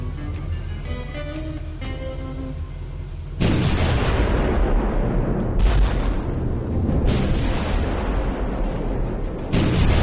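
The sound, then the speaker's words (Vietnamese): Heavy booms of 105 mm artillery guns, four or five pieces set on an open road, firing continuously. After a quieter tonal opening, several loud blasts come with rumbling roar filling the gaps between them. “Ngay trên khoảng rộng thoáng của con đường hướng Bắc Chớp và đặt giữa đường là 4-5 khẩu pháo 105 ly liên tục nhả đạn.”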